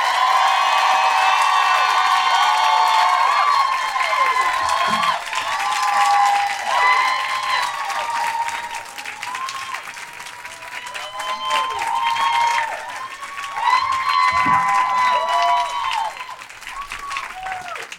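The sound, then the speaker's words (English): Audience applause and cheering greet a speaker taking the stage at a Philadelphia event. Dense clapping runs the whole time with whoops and shrill cries over it, dipping slightly midway before swelling again. “Please welcome to the stage, with the kind of woohoos that would match that resume, the incredible Feminista Jones!”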